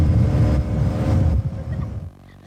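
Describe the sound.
A boat engine on the Danube speeds up, heard as a loud, low, throbbing roar that holds steady and then eases off toward the end.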